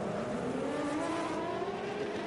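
GTP race cars roar past through the fountain section of a circuit, a loud, continuous engine drone with a steady, dense tone throughout and no voices.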